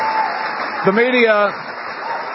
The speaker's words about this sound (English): can we just give another round of applause to the President of the United States for his leadership on this issue?